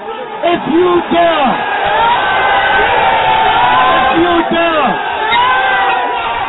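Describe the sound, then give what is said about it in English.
A large crowd at a rally cheers and shouts in a continuous loud roar, with a voice speaking forcefully over the noise. “Take a look around you, boys. Take a look around you at this crowd.”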